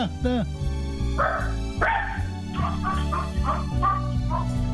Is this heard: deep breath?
no